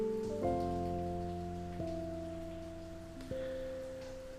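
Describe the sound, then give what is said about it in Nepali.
Steady rain falling, a continuous soft hiss that holds evenly throughout, with sustained droning tones above it that change pitch a couple of times. “I really hope यो पानी छिटो बन्द होस्”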